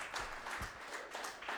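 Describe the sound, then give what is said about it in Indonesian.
Faint applause from an audience for team C at a quiz contest, an even patter of clapping without a clear peak. “Bapak Ibu berikan dulu tepuk tangannya untuk regu C.”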